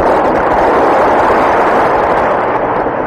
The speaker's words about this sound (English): However, on July 16, 1945, they had observed what appeared to be an atomic explosion